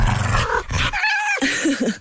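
A dog growls and snarls in loud, harsh, rumbling bursts broken by a short gap, then resumes with rougher, higher snarls.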